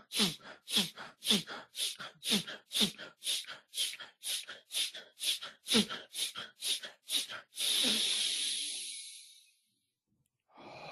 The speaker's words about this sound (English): in through the nose, out through the mouth, but your focus is on taking in the breath. And you can go faster also.